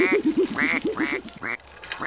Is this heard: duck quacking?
yes